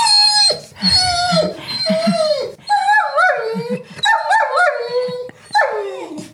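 Dogs barking in greeting, one a Welsh terrier, in a busy run of high, whiny yips, short barks and wavering howl-like calls that overlap throughout.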